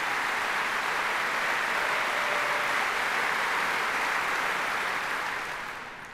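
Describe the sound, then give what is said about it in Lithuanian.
Applause from the audience at the BBC Proms for the BBC Singers: a smooth, dense sheet of clapping that holds steady, then tapers away over the last second. “Plojimai.”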